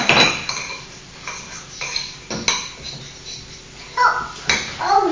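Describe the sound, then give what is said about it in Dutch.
Clinking of a spoon stirring in a pot, with dishes and cutlery knocking together. A few sharp metallic clinks and scrapes come in uneven bursts at moderate loudness, with quieter rattles between them. “Zo, dan mag jij roeren. Kun jij roeren?”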